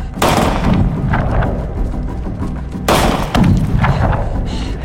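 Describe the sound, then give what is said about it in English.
Gunshots fired at the ground and then at a rock formation in a limestone canyon: two loud, sharp bursts about three seconds apart, each with a ringing tail and weaker echoes after it. “She hits the ground with a shot, then she shoots a rock formation as Billy ducks behind it.”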